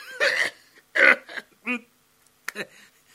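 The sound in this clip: An old man chokes and coughs in a few short, rough bursts with brief pauses between them. The bursts are uneven in loudness, and no other sound accompanies them.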